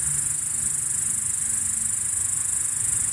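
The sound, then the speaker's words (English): Cicadas in Edmonton make a steady, loud, high-pitched buzz that holds without a break for the whole stretch, with no voices over it. “That cicada sound you just heard is,”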